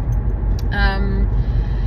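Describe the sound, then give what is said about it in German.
Steady, loud low-frequency rumble fills a car interior while driving, a constant droning road and engine noise with no breaks. “Aber ich dachte, ich bin jetzt 40 Minuten im Auto, why not?”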